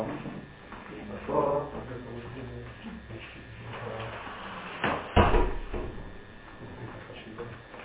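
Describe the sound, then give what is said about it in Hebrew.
A door is shut with a brief two-part knock and thud in the middle of an ongoing conversation, with voices talking before and after. “אכפת לכם אם אני אסגור את הדלת?”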